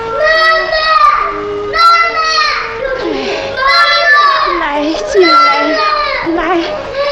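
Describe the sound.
A young child crying loudly in several wailing bursts, with strongly wavering pitch and short breaks between cries.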